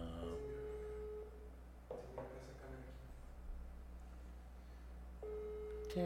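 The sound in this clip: Ringback tone of an unanswered telephone call: a faint, steady mid-pitched tone about one second long, a long pause, then the tone again, over a low hum, with a brief spoken word in between.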